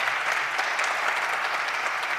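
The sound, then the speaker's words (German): Lively applause for a guest invited onto a stage at a music and culture event, dense and even, with crisp overlapping claps throughout. “Magst du auf die Bühne kommen, Lena? Lena Krause, ein großer Applaus.”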